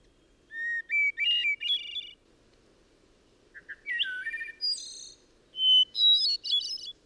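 Hermit thrush song: clear, flute-like whistled phrases, each opening on a held note and breaking into higher ringing flourishes, a few phrases separated by short pauses over faint background hiss.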